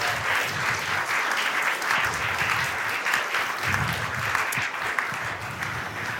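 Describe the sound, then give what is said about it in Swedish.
Audience applause greets guests walking onto the stage at a heart and lung health event. Dense, steady clapping from a large crowd keeps an even, loud level for the whole stretch without any voices. “Och nu är det dags för mig att presentera dem och då ger ni dem en varm applåd såklart.”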